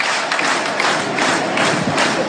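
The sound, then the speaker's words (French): A loud crowd roars and cheers at a Stade Lavallois home football match during the final seconds, with Laval leading 2-1. The dense roar holds steady throughout, without clear breaks. “Les encouragements du public de Levasseur pour ces toutes dernières secondes.”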